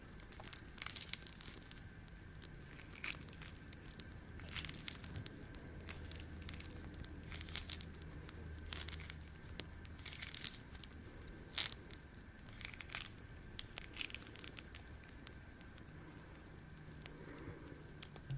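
Fruit with very soft skin being peeled by hand, heard as faint, scattered tearing and crackling bursts that come irregularly throughout over a quiet background, with no talking.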